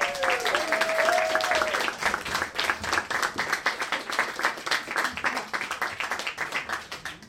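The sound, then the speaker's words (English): An audience at a live stage show claps and applauds steadily. A brief vocal whoop comes first, then the clapping builds into a dense, even patter that continues to the end. “Please put your hands together. Stamp your feet if you want.”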